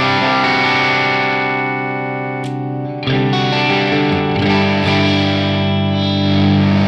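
An electric guitar played through a drive pedal at low gain gives sustained, gritty chords with a rich buzzy edge. The ringing briefly thins partway through before fuller strummed chords return. No voices.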